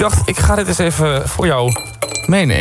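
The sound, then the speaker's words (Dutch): Ice cubes clinking into a large drinking glass, a few bright, hard glassy taps heard under ongoing talk in Dutch. “Ik vul het glas nu met ijs.”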